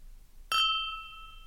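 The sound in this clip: Glasses clink together in a toast: one sharp, bright strike followed by a clear ringing tone that fades slowly over about a second, with nothing else heard.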